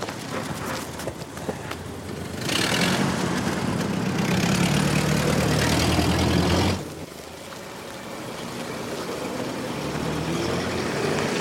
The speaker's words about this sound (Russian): Поехали до интерната. Садятся в машину.